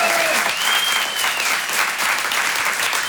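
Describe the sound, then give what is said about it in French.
An audience at a comedy show applauds and cheers in a dense, steady wash of clapping, with a whistle cutting through briefly near the start. “je suis premier, faites du bruit s'il vous plaît un peu.”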